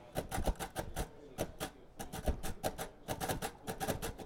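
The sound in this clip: A Braille writer clacks out numbers in uncontracted grade one Braille: many quiet, rapid mechanical keystrokes in short rhythmic bursts with brief pauses between them.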